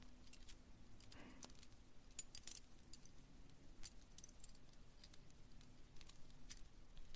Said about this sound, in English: did a collab one time that was called The Keys, and Heather gave us all three keys as a gift, and here they are.